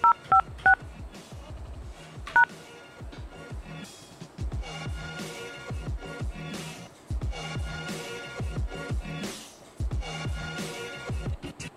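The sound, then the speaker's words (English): Telephone keypad tones entering an access code for a conference call system: a few short, sharp beeps at the start, then a steady rhythmic tonal background with no talking. “Please input your access code followed by the pound key.”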